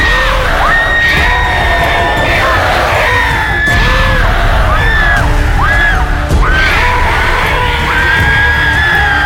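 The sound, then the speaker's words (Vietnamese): A horned, red-eyed demon screaming fiercely, loud continuous yells and wails with several rising and falling howls layered over a rough, dense roar that never lets up. “Nó cứ gào thét tiến tới Linh một cách dữ tợn.”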